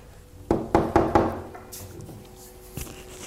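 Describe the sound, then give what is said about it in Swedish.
Knuckles knock on the locked door of a house with cardboard-covered windows: four quick, fairly loud raps in an even rhythm, followed a moment later by a single fainter thud. “Jag knackar på.”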